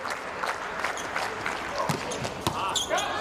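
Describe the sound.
A volleyball is served in the fifth set of a match, sharp slapping hits standing out over a steady wash of crowd noise and commentators talking.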